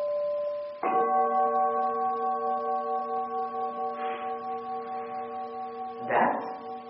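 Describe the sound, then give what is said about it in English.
A bell struck before a recitation rings out with a clear, sustained metallic tone that slowly fades, and a second strike near the end renews the ringing. “I try to let the bell have its say before I speak over it.”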